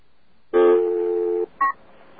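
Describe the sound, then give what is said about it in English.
Telephone tones from a voice-dialing call to an extension: a steady tone lasting about a second, then a short higher beep, heard alone with no talk. “so let's call up now. Let's use this voice dialing.”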